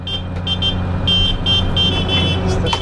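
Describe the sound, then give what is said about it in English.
A stuck car horn blares in uneven, repeated bursts, thin and weak-sounding in places, over a low, steady mechanical hum. “the horn on the steering wheel get stuck. And this just makes me bust. Because it's not the fact that it's blaring, it's the fact that it, in places, sounds really weak and pathetic.”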